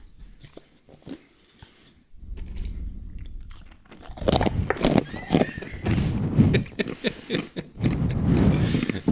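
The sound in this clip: Crunchy chewing of dried banana pieces taken from a glass jar. Many crisp bites and crunches come in bursts, growing louder and denser through the second half.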